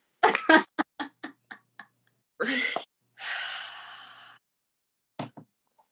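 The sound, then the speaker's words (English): A group takes a breath together: a few short breathy bursts, then a sharp inhale and a long, sighing exhale. Brief faint breaths follow near the end. “Do you want to take a breath together? Do you want to? Yeah, I took a breath with you too. Let's do it together.”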